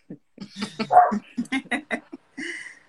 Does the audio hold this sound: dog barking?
yes